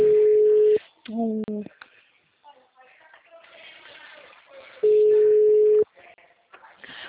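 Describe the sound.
Telephone ringback tone on a call: two steady, fairly loud single-pitch bursts, each about a second long and about four seconds apart, with quieter irregular sounds in the gap between them.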